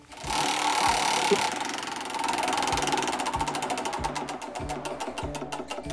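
A large prize wheel spins in a studio, giving off a steady run of rapid mechanical ticking clicks over a low, continuous hum.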